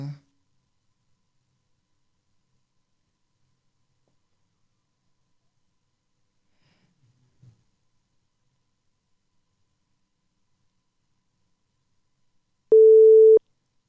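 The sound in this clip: Telephone busy tone after a call is cut off: after a long near-silence, one loud, steady beep sounds at the very end.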